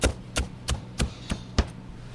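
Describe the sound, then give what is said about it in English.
A knife chops scallions thinly on a bias, giving six crisp, evenly spaced knocks of the blade on a cutting board, fairly quiet and with no voices. “All right, so now we're going to add 2 scallions. Just cut them thin, and I'm going to cut them a little bit on a bias.”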